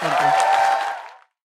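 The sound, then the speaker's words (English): Audience applause at a live show taping: a dense burst of clapping with some cheering that holds steady, then fades and stops abruptly after about a second. “How about a nice round of applause for Robin Thede, the rundown on BET coming.”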